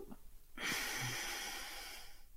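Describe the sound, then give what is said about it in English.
A deep breath is held and then released as a long, breathy exhale during a guided breathing exercise. The soft rush of air starts abruptly, stays steady for nearly two seconds and fades, quiet throughout. “Take a deep breath in. Hold it at the top and let it go.”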